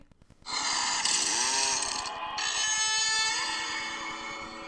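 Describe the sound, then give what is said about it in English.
A chainsaw starts up abruptly and holds a loud, raspy buzzing drone. The pitch wavers briefly early on and dips once midway, then the saw runs steadily to the end. “Yeah, heard that chainsaw?”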